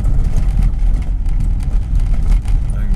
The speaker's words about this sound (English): this really noisy road I'm driving on right now, and I'm about to go down a track because it's going to get even noisier